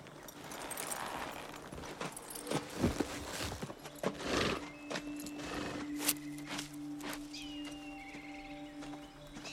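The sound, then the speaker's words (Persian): Horses stand and shuffle as riders dismount: a few irregular hoof clops and footstep thuds against a steady low background, with no voices. “اسبا رو میذاریم همینجا، بقیه راهو پیاده میریم.”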